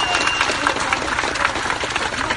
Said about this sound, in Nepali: अन्त्यमा एकपटक ठुलो ठुलो जोरदार तालीले उहाँले सबैलाई धन्यवाद